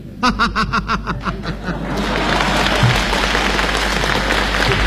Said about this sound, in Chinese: 大家都着急了，只给您鼓掌。